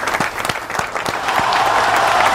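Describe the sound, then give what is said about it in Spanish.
An audience applauds at a live informal evening show. The clapping is dense and steady and grows slightly louder in the second half. No one speaks. “Un aplauso para ella. Un aplauso.”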